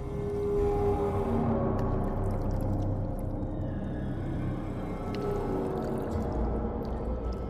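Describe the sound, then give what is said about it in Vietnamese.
Waves wash onto a long sandy shore along a coastal road in Nha Trang, making a steady, soft rushing murmur with no distinct breakers. The sound stays even and moderately quiet throughout. “Tiếng sóng rì rào vỗ vào bờ cát trải dài theo dọc đường Phạm Văn Đồng.”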